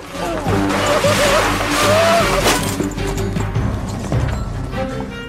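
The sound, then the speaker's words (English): A motor car speeds past a horse-drawn caravan in the woods in a loud, rushing burst of clattering and crashing noise that peaks near the middle and then breaks into scattered knocks. “A motor car speeds by, causing the horse tugging the caravan to rear up.”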